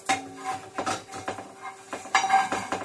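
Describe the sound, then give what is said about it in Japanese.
Spatula and pan clatter as a thick pancake is flipped in an oiled frying pan: a few short metallic scrapes and knocks in uneven rhythm, with a faint steady tone beneath. “もう一回ひっくり返してみるわね。4にちょっと油つけといて”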